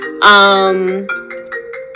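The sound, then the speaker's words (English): Mobile phone ringtone going off: a loud, bright electronic tone rings out, followed by a series of short repeated notes. “because my phone is going off. And of course, I did not turn it off.”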